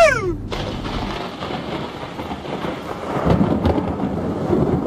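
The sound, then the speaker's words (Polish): Thunder rolling through a thunderstorm over open fields in Mazovia, Poland: a deep, continuous rumble that swells louder toward the end, with a rain-like hiss beneath it. “I jedziemy na pola, panie kolego, i bliżej tej burzy jeszcze.”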